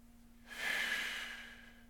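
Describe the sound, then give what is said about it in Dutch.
A single slow, deep breath out, soft and airy, swelling and then fading over about a second, faint over a steady low hum. “Adem uit en laat je buik los, zeggen ademtherapeuten dan. Je moet maar eens doen.”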